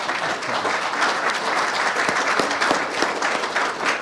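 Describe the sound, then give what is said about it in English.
Audience applause welcoming a speaker to the stage: a dense, steady patter of many hands clapping that holds at an even, fairly loud level throughout, with no voices over it. “Anyway, please help me welcome Jack Devine.”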